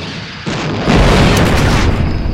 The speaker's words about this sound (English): The starfighter exploded in a ball of white light.